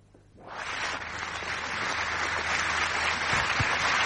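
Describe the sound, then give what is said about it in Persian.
Audience applause welcoming guests onto a stage swells within half a second and then holds as a dense, steady wash of clapping to the end. “دوتا مهمون هنرمند داریم که اونا رو روی صحنه دعوت میکنیم، براشون دست میزنید و میان روی صحنه”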